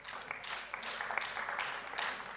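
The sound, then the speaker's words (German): Applause in a parliament chamber: a steady, dense wash of clapping that holds fairly quietly for the whole stretch, with no voices standing out. “Das, meine Damen und Herren, ist beeindruckend, und ich finde wirklich auch mal einen Applaus wert an der Stelle.”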